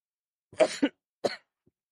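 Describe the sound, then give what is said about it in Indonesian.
A few short, rough coughs come as two close bursts and then one more after a brief gap, fairly faint with silence around them. “Sampai batuk saya, ibu-ibu.”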